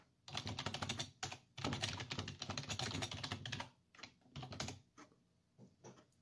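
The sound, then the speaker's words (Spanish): Fingers type a message on a computer keyboard: fast runs of faint clicking keystrokes broken by short pauses, with no voices. “Le voy a escribir a Einar.”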